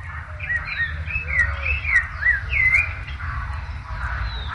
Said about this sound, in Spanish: Ahí está el zorzalito cantando.